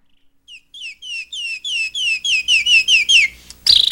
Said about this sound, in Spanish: Oígalo, ahí está el canarito.